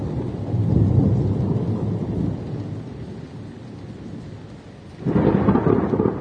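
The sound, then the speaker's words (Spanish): Heavy rain pours down in darkness with thunder, a steady dense roar of falling water and low rumbling. The sound eases in the middle, then swells sharply louder again toward the end. “La lluvia caía como si nunca lo hubiese hecho antes y se fundía con la oscuridad, aumentando el miedo.”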